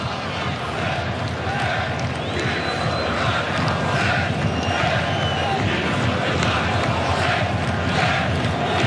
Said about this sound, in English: It's the sound of the Moroccan supporters. In fact, you're seeing the French, you're hearing the Moroccans.